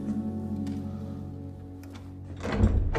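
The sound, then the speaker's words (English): A bedroom door is pushed shut by a bandaged hand, giving a single dull thud near the end against a steady, sustained tonal backdrop. “She pushes the door shut with her bandaged hand, then leans her back against the door.”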